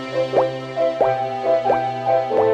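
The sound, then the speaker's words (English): Four evenly spaced drops of dripping water, each a round plop with a quick upward pitch sweep, fall over a steady tonal hum. “drip noise? It's not the sink.”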